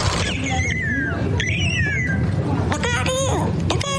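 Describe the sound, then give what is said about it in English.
Bird calls: a couple of drawn-out falling whistled notes, then a quick run of harsh, harmonic chirps, all over a steady low rumble. “You hear that? Sounds like a bird saying, look out here, look out here.”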